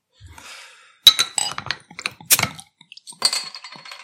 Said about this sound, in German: Kann ich jetzt endlich mal mein Bier aufmachen? Und ey, ich habe hier den Öffner auch schon nervös in der Hand.